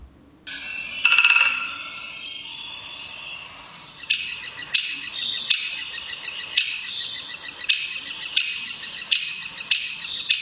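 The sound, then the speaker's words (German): A recorded woodpecker alarm call: a longer, buzzy high call is followed by a series of sharp, high, clipped notes repeating at a steady, roughly half-second rhythm. “dieser wunderschöne Gesang ist, ist bei Spechten eben das. Ich lasse noch mal laufen, weil du jetzt gerade dieses Kicks, Kicks, Kicks übersprochen hast.”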